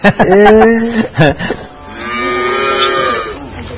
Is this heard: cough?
no